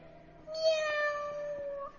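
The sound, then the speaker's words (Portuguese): A cat gives a single drawn-out meow, fairly faint and steady in pitch, before trailing off into quiet. “Bom dia, senhor gatinho!”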